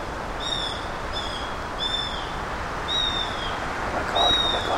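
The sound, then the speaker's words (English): A male bird calling from the treetop near the nest, giving five high, thin whistled calls, spaced roughly evenly and standing out clearly over a soft outdoor hiss. “And then suddenly the male was calling in the treetop. She's calling him. Right above me.”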